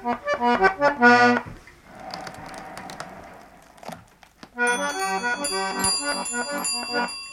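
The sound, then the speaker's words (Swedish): Bells ring on a mechanical instrument rebuilt from an old catalogue, with six ranks. Bright, high chiming notes sound in quick succession alongside other tonal notes, with a noisier stretch in between and no talk. “Det var det här jag hade när jag talade om att det var ringklockor.”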